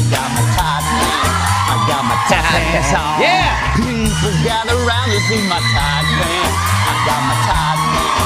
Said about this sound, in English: We need a version of that without the live audience there.